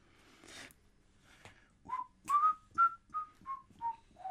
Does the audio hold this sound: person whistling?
yes